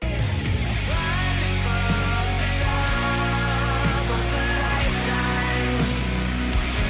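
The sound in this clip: Pop rock song playing on the radio, with a full band and steady, sustained chords at an even, loud level throughout, without any talk.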